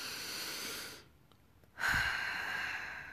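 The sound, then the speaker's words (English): A person takes a deep breath in. After a short near-silent pause, a long, steady, breathy rush begins abruptly, with a faint whistling tone, and holds to the end. “just take a deep breath in gratitude. Let's do that again one more time.”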